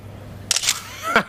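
A single-lens reflex camera shutter fires as a photo is taken, making a crisp double click followed by a softer mechanical sound.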